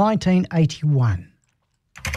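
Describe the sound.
Typing on a computer keyboard: after a voice speaks and a short pause, a quick burst of clicky keystrokes comes in at the very end.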